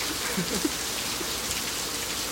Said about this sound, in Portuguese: Tá chovendo demais.